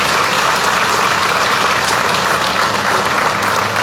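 An audience applauds members being recognised at a meeting with a continuous, even round of clapping that stays steady and fairly loud from start to finish.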